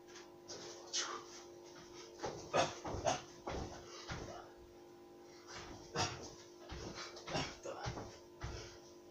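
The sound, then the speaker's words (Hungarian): A dachshund whimpers and pants in many short, irregular bursts, fairly faint, with some breathy, wheezy sounds between them. “A kutyámat!”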